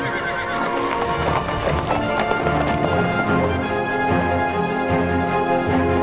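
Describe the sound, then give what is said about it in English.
Hooves of a galloping horse clop in a rapid, unbroken rhythm throughout, with whinnying mixed into the dense, steady racket. “Unhitch the horse and give him the reins. Hurry!”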